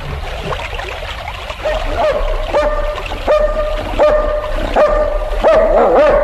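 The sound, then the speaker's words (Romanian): A dog barks in a rapid, irregular series of many sharp, mid-pitched barks that grow louder toward the end, over a low rumbling background. “Dar cum te cunoaște câinele ăsta?”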